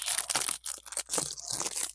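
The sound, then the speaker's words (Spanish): A cardboard box is torn open in a few quick, crunchy ripping bursts with short pauses between them. “Ahí ya rompí la caja nomás.”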